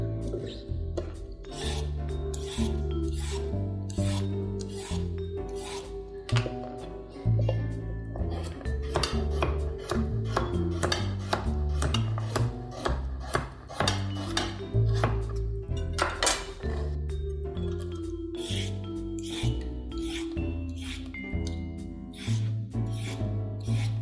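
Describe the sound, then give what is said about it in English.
A knife chopping carrots and parsnips in a rapid run of sharp cuts that carries on throughout, with music playing steadily underneath. “Trying to not chop up my fingers in the process.”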